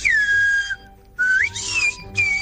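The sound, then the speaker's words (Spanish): A Silbo Herreño whistled-language greeting: three loud, pure whistled phrases, the first sliding down to a level pitch, the second rising sharply, and the last gliding into a short cut-off. “es un saludo del presidente de la Asociación del Silbo Herreño, que ha dicho: hola, oyentes del Hoy por Hoy”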